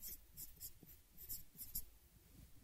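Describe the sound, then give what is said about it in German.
Handwriting on a surface as letters are written out, heard as faint, soft, scratchy strokes in a quick, irregular series of short bursts. “Ich schreibe in den Kopf hier TG und hier LG.”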